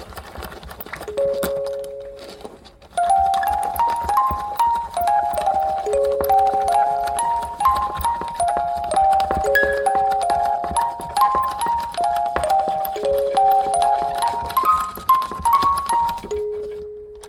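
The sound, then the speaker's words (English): A music box plays a melody of bright, plinking notes. A couple of tones open it, then a steady stream of quick, tinkling notes runs up and down at a moderate pitch before a final held note. “I'm not sure if like, you know, anybody would like listen to that, the music box on its own, and think like driving.”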